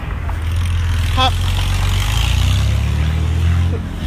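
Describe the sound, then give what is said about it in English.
A passing truck with a bad muffler gives off a loud, continuous, deep and raspy engine rumble that stays fairly even throughout. “I'm going to let this truck go by. They got a real bad muffler thing going on over here.”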